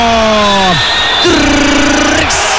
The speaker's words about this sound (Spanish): Se vuelve loco el público acá en la Casa del Deporte.